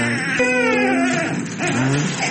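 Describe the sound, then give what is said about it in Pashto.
Malnourished children at Tarinkot provincial hospital cry from hunger, their high, wavering wails overlapping and sustained throughout, with pitch bending up and down. “بلکې دا ماشومان د ډوډۍ او یا هم د خوړو د نشتوالي له امله ژاړي چې ګیډه یې وږې ده او اوس یې تازه د ترینکوټ ولایتي روغتون ته راوړي.”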